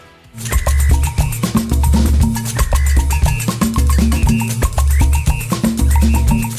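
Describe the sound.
Samba music plays loud with no voices. Busy, dense percussion drives a fast, steady rhythm beneath bright tonal instruments.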